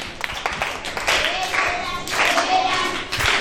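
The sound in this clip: Applause from a church gathering for a child who has just recited a Bible verse, many quick overlapping claps sustained throughout, with voices mixed in.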